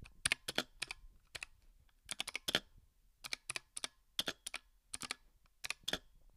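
Typing on a Huntsman V2 keyboard: many crisp, clicky keystrokes in short uneven clusters separated by brief pauses. The keys sound quiet and sharp, with no talking over them.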